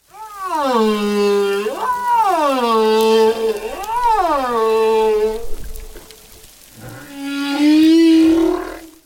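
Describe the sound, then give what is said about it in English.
Whale song recorded at sea: loud, drawn-out tonal calls that sweep smoothly up and down in pitch, followed after a short lull by a lower, wavering moan. “It became popular to listen to the song of the whale, recordings of whales communicating at sea, which sounds something like this.”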